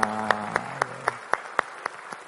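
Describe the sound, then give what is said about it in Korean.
A church audience applauds in encouragement. The claps are evenly paced and rhythmic, with a brief voice heard at the very start. “우리 박수로 격려하십니다”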